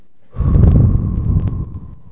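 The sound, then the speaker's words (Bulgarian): A deep cleansing breath, loud and airy, one long breathy rush lasting nearly two seconds before tapering off, with no talking. “Well, first of all, първо, you take a deep cleansing breath.”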